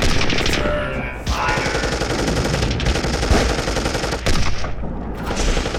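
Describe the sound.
Rapid gunfire from a sci-fi battle: dense, continuous bursts of automatic shots rattle loudly for the whole stretch, with no clear pauses and no voices.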